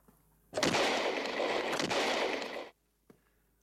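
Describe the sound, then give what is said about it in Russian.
Gunshots fired indoors at the wall of a house form one dense, loud burst of rapid reports lasting about two seconds, followed by a single faint click after a short pause. No voices are heard. “Что вы делаете? Не видите? Стреляю.”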